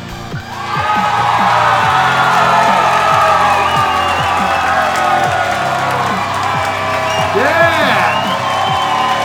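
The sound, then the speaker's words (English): A packed audience at a live BattleBots-themed show cheers, whoops and shouts in a dense, continuous roar that swells after a brief quieter opening and stays loud throughout, with rising and falling yells poking out of the crowd noise. “Audience is hyped tonight. Oh yeah. We packed them in for this show too.”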